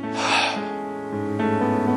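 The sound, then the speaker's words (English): A voice imitates a dying person's last breath with a short, breathy gasp that trails into a low, drawn-out voiced groan, heard alone. “Don't breathe your last breath. Usually that last breath sounds kind of like,”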